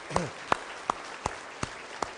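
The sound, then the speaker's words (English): Clapping for a children's church program: six sharp, separate claps land at a slow, even pace, each crisp but fairly faint against a quiet background. “I really enjoyed that program this morning from the boys and girls. I think we should give them a round of applause to encourage them.”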